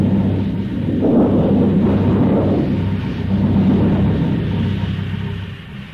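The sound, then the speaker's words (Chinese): A wind and thunderstorm sound effect from a Beijing stage drama: a loud, continuous low rumble of thunder with a broad windy roar, steady throughout with slight swells, with no voices. “第三幕，风雷闪电刚过，接着下了一场暴雨。”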